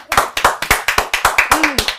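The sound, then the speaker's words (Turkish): A brisk round of hand claps in honour of women on a Turkish talk show, about a dozen sharp claps in a quick, even rhythm. “O zaman bu bir nezaket şeyine de kadınlarımız bizim her şeyimiz ya. Hepsi için bir alkış.”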